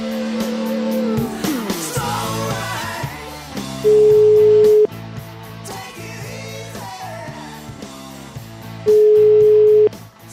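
Ringback tone of an outgoing telephone call: two steady, loud one-second beeps about five seconds apart over background music.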